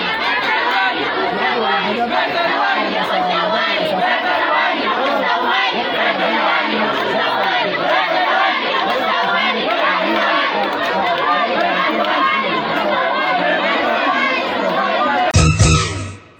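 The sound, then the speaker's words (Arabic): Students chant and shout slogans together in a protest procession, a dense, loud mass of overlapping voices that continues throughout, with a brief sharper burst near the end. “وردد الطلاب المشاركون في الموكب هتافات”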